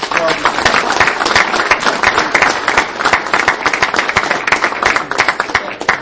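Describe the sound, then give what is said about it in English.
Audience applause follows the presentation of a certificate of appreciation, with dense, continuous clapping from many hands that stays loud and even for about six seconds. “And if everybody could give Bob a round of applause.”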